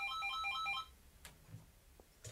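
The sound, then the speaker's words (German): A telephone rings at home after dinner with a quick, bright electronic trill repeating in short bursts, then stops abruptly, followed by faint clicks and quiet room noise. “Zwei Abende später klingelte nach dem Essen bei Brunetti zu Hause das Telefon und Paola nahm ab.”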